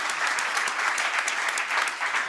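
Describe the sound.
Applause for a panel speaker: dense, even clapping from an audience, loud and steady throughout with no talk over it.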